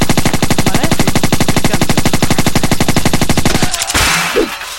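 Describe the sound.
Rapid automatic gunfire from a weapon in a Spanish-language shooter video game: a long, evenly spaced stream of loud, punchy shots for about three and a half seconds, then the firing stops and a brief softer noise follows.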